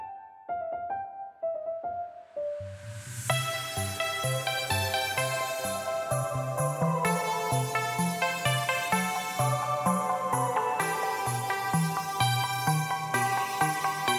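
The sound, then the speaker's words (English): Electro dance music: a few soft, sparse piano notes open it, then a steady synth-heavy beat with pulsing bass and dense layered chords comes in and continues to the end. “What if he made an electro dance version of Snow Mountain? It'd sound a little like this.”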